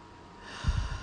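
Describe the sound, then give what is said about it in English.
A single short breath during a guided breathing exercise: a faint airy hiss, then a soft snort-like puff with a low rumble in the second half. “I'm going to inhale and exhale. Going to inhale and exhale again.”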